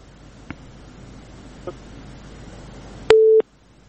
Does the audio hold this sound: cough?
no